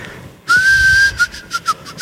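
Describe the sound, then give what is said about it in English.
A person whistles a tune alone: one long, clear sustained note followed by several short notes near the same pitch, fairly loud and bright. “And I picture him whistling a tune, you know.”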